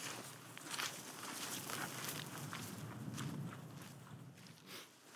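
Faint squelching footsteps of walkers on wet hillside ground, a steady soft shuffle of many steps with no talking.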